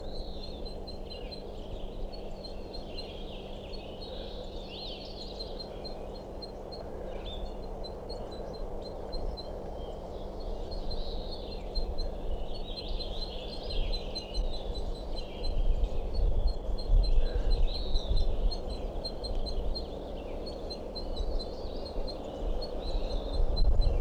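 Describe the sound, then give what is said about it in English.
A female crossbill calls from a nest in a tree, with faint, high, repeated chirping notes recurring throughout over a low steady background hum. “I'm underneath that tree I think a crossbill is nesting in, and this calling from I think a female crossbill somewhere on a nest continues, and this is a sample.”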